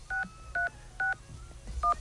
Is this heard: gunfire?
no